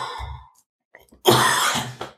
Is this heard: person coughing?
yes